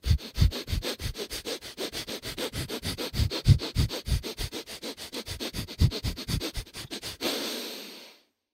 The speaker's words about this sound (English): it's where you inhale like a bunch through your nose, and then you hold your breath